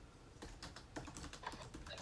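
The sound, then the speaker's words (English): Typing on a computer keyboard during a meeting: many quick, faint key clicks in an uneven, steady patter. “I'm trying to type something out here.”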